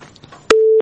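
A telephone busy tone after a dropped phone call. It is a single loud, steady mid-pitched beep lasting about a third of a second, after faint crackly line noise.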